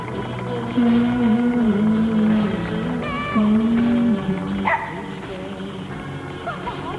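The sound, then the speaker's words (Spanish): A dog peering into a well, yelping and whining: a few drawn-out, pitched cries over a continuous low tonal background. “Un perro se asoma a un pozo.”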